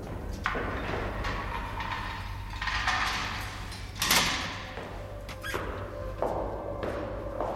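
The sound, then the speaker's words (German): A prison cell door being unlocked: a few low knocks and rattles, then a louder clunk of the lock and door, over a steady low hum. “Bald darauf wird Germans Zellentür aufgeschlossen.”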